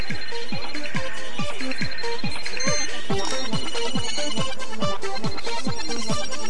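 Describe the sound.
A phone ringtone for an incoming call in a school classroom plays a loud, steady melodic pattern of repeating plucked-sounding tones that continues without a break throughout.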